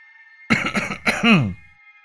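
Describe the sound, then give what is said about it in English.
A throat clearing: a loud, rough, raspy double 'ahem' with a gravelly first burst and a more voiced, throaty second one, heard alone against silence. “When I cleared my throat, he glanced up at me.”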